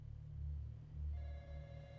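A telephone rings, its electronic tone starting partway through and holding steady over a low, humming rumble.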